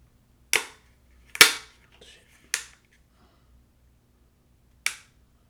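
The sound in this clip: Dry trigger pulls on a KE Arms rifle with a 3.5-pound single-stage trigger: four crisp, sharp clicks at uneven intervals, each separated by near silence.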